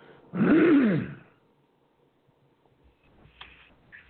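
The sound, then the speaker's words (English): A single harsh, raspy throat clearing from someone with allergy-related phlegm, loud and lasting under a second, followed by near silence with a few faint small noises. “Excuse me a second, folks. Can't keep my throat clear. I feel like I've got a phlegm ball in my throat.”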